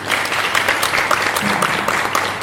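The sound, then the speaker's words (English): An audience applauds after a talk at a panel event, a brief burst of dense, lively clapping at a steady level. “I think a round of applause.”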